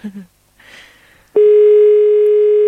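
A telephone call tone on a line that goes unanswered: after a second of faint scattered sounds, a loud, steady, unbroken tone starts and holds to the end.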